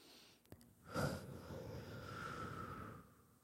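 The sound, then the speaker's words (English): A deep exhale through the mouth during a guided breathing exercise: after a faint click, a soft, breathy rush swells quickly, then trails on as a quiet, steady airy hiss for about two seconds. “So let's take one more big inhale through the nose and then open through the mouth. Exhale.”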